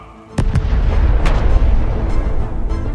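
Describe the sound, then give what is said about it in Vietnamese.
Explosion sound effect: a sharp blast after a brief quiet start, then a deep, sustained roaring rumble with crackling bursts through the remaining seconds. “Một tiếng nổ long trời lở đất phát ra giữa thinh không.”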